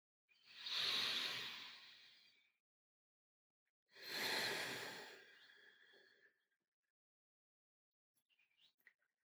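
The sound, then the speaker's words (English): A long, full breath taken during a guided relaxation exercise: a slow, airy inhale followed by a longer, soft exhale. Both are clearly audible against silence, and a few faint small sounds follow. “Take one more long, full cycle of breath.”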